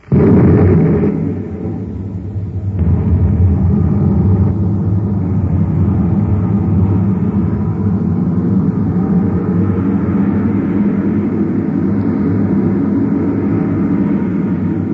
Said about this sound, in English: start the ship. Stand by to fire rockets. Half G acceleration. Standing by, sir. One half G. Fire rockets.